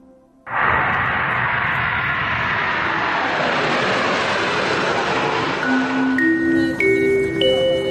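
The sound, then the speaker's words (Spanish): Airliner landing at London Gatwick airport: a loud, broad roar starts abruptly and holds steady, with several high, steady whining tones rising out of it toward the end. “Pues acabo de aterrizar en Londres, en el aeropuerto de Gatwick”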